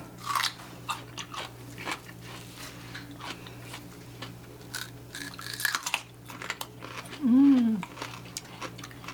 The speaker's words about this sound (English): This one stays nice and crisp all the way through there. Mm-hmm. Makes a nice radish. Now, look how the bright color that red is out there. Isn't that beautiful? Let's taste it.